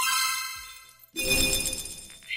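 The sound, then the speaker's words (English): Video game item-drop sound effect, where a defeated enemy vanishes and an item such as a potion, shield or sword pops into place: a tonal, chime-like sound fades out, then a bright, noisy burst follows. “It's when you win an item after beating an enemy in a video game. The enemy disappears, and in its place, maybe a potion or a shield or maybe a sword, it just pops into place.”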